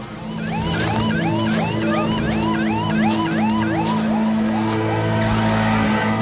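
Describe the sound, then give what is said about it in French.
Ambulance and police sirens arrive, loud warbling wails that sweep quickly up and down in repeated overlapping cycles over a steady low engine rumble. “Notre ambulance arrive, la police est là, même les forces spéciales qui sont là.”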